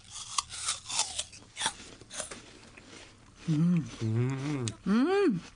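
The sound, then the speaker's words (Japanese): Crisp crunching of bites into a farm-grown Fuji apple, with many sharp, irregular crunches and chewing sounds over the first three seconds before a voice begins speaking. “そのリンゴをちょっと これ いただいてきました。 石岡さんの、 はい、石岡さんの作ったリンゴ、これは富士です。 富士、いただきます。”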